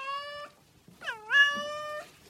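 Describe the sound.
Two meows from an old cat sitting by a roadside: a short, steady one, then a longer one that dips in pitch before levelling off. Both are clear and stand alone.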